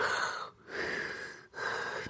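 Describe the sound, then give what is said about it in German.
A voice imitates a sleeping woman's heavy breathing rather than snoring: three long, rasping, airy breaths with brief pauses between them, fairly loud and alone. “wenn meine Frau so schläft, dann hat sie so ein, ja, wie ist denn das? Ja, nicht so ein Schnarchen, so ein, ja, die Atemgeräusche, ne? Sie sind dann so,”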